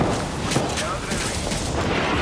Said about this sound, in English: Airstrike? That doesn't sound nice.